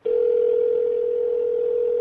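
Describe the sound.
A dial tone on an iPhone call sounds as one steady, unbroken, mid-pitched tone. It runs for the whole clip at an even loudness, with no talk.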